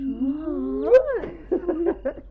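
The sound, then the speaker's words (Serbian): A neighbours' tomcat meows beneath a window: one long, drawn-out meow that climbs and then drops away, followed by a few shorter, clipped yowls. “Da onaj njih mačak došao pod naš penđer, pa sve njavroče.”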